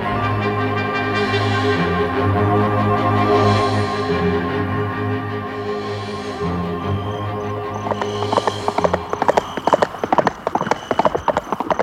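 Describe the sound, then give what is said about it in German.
Horses' hooves clip-clop as riders travel through thickening fog near a river. In the second half, many rhythmic hoof strikes enter over a sustained, droning musical tone that fills the opening. “Ist Winnetou sicher, dass wir nicht im Kreis reiten? Der Nebel wird immer dichter.”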